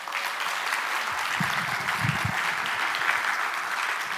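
Audience applause welcoming a guest onto the stage at a Sunday church gathering: many hands clapping in a steady, sustained wash, with no talk over it.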